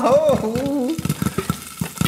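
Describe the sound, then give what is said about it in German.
Homemade popcorn pops in a pot: many sharp, irregular pops come in a quick scatter after a short voiced sound at the start. “Wann poppt denn der Popcorn endlich? Oh, es ploppt.”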